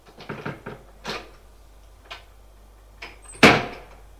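A house door at the top of a staircase is opened: a few soft knocks and scrapes come first, then a single loud, sharp thud near the end.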